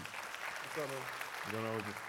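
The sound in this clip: An audience applauds to welcome a guest onto a stage: a steady, faint patter of clapping, with a couple of brief voiced calls rising above it.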